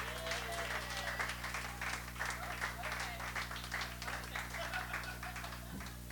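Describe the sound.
Audience applause welcoming two contestants on stage at the start of a contest round: dense, steady clapping from many hands, sustained at an even loudness for the whole stretch.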